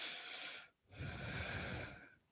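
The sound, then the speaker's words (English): Two slow, audible breaths during a yoga flow, a shorter breathy inhale followed after a brief pause by a longer, rougher exhale, both close and fairly loud. “Breathe in. Breathe out.”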